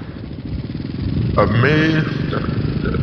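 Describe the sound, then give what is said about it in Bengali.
A motorcycle engine sound effect, used in a horror story, rumbles steadily throughout, with a voice speaking briefly over it midway. “না বৃষ্টিটা শুরু হোক, আর বাইকের আওয়াজ”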